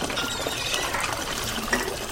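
Raspberry juice poured at a stand selling natural juices, a steady gushing, splashing stream of liquid that runs evenly throughout with no voices.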